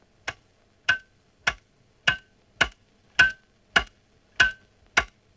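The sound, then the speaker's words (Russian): A cuckoo clock ticking, with nine sharp, evenly spaced ticks at a steady, moderate pace and nothing else heard between them. “Висят, словно в воздухе, уцелевшие часы с кукушкой.”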